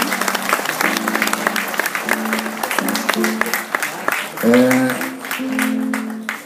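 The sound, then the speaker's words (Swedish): Audience applause at a live folk music concert as a performer is welcomed onto the stage, dense, steady clapping that fills the whole clip and swells slightly near the middle. “Om ni applåderar så har vi Julia på väg upp.”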